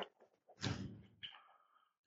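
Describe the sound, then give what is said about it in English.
An office door being opened, faint: a short dull thud followed by a brief creaking scrape that fades out. “He stands and starts shaking your hands, and then heads to the office and opens the door.”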